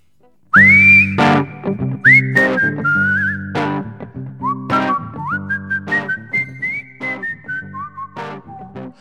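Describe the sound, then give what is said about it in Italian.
Whistled melody carrying a pop song. After a brief silence, bright whistled notes glide and leap over steady backing instruments, moving through a lively run of short phrases. “La canzone col fischietto. Col fischietto,”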